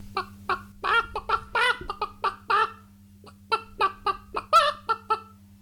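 Hens clucking in a henhouse: many short, choppy clucks come in uneven bursts over a steady low hum, with a brief pause midway.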